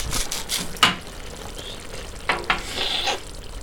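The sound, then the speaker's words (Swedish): Eggs sizzle in shakshuka, a spicy Middle Eastern vegetable stew, on a home kitchen stove. A faint, steady crackle is broken by a few short bursts of stirring or scraping. “Det är en shakshuka som är en kryddig grönsaksgryta där man steker äggen”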